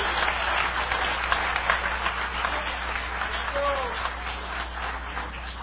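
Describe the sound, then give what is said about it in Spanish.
A church audience applauds for Jesus Christ during an evangelical testimony service. The clapping is steady and moderately loud, and voices are heard over it. “Dale un aplauso de poder al Señor Jesucristo.”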